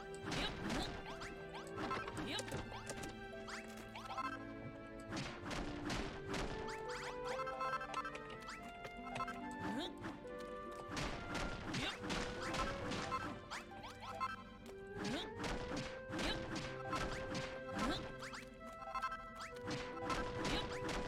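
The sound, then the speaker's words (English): Repeated smashing and crashing while breaking up a floor before rebuilding it: many loud, hard impacts follow one another closely, with cracking and clattering debris throughout. “Smash, smash.”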